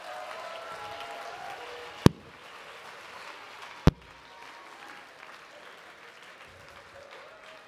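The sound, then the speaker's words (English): Audience applause welcoming panelists to the stage, a sustained patter of clapping broken by two sharp, loud knocks. “So you all put your hands together and welcome to the stage our panelists.”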